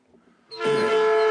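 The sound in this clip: A train horn blast as a sound effect: one loud, steady, sustained tone with strong harmonics that cuts in after near silence and holds to the end.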